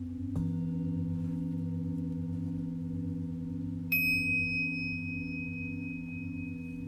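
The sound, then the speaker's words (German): A singing bowl gives a steady, sustained ringing hum. A soft strike sounds near the start, and a bright higher ring enters later and fades slowly over the low drone. “Mit dem Klang der Schale kommst du ins Hier und Jetzt zurück.”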